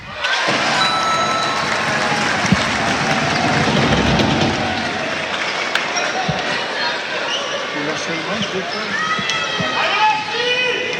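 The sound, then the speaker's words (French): A basketball crowd in an arena reacts to a Strasbourg free throw with applause and cheering over steady crowd noise. Voices talk throughout, with scattered bounce-like thuds. “Et à la réaction du public, on pense quand même que le premier lancer franc a été réussi.”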